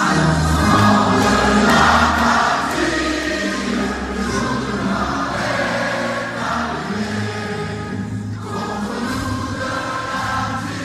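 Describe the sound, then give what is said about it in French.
A stadium crowd sings La Marseillaise before France's semi-final match against Slovenia. Massed voices form a loud, continuous chorus over a steady low rumble. “le public semble confiant et entame une joyeuse et vibrante Marseillaise.”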